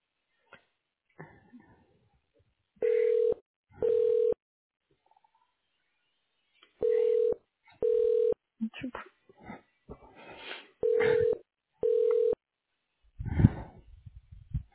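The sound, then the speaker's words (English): Telephone keypad tones pressed while navigating the automated phone menu of a radiology office: six steady, identical beeps in three evenly spaced pairs, with faint murmured sounds and soft noises between them. “For the medical records team, press 5. For the insurance team, press 6. All other callers, press 8 to be connected to the next available associate.”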